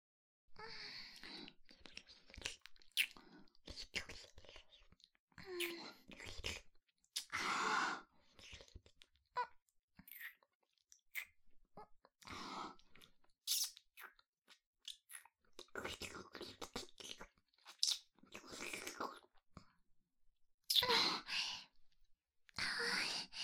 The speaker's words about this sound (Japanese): 首も甘い。あなたの体とっても美味しいよ。反対側も舐めちゃおっと。